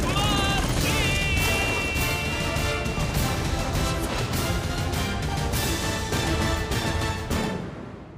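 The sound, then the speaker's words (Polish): Gunfire in a shooter video game: rapid bursts of shots and crashes inside a dense, loud wash of game sound that carries on throughout. “Uważaj, grana! Strzelają!”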